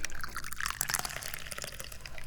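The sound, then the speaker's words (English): Tea poured into a cup, a steady splashing trickle of liquid for a couple of seconds with a bright, hissing texture and no talking. “Well, the first thing we gotta do is pour some tea.”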